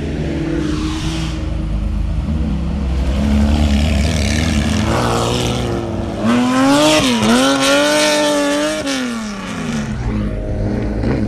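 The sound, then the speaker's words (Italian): Three Porsche 911 sports cars drive past on an Apennine road. Their engine notes swell and drop as each one passes, and the loud, revving howls overlap in several waves. “Erano tre Porsche 911.”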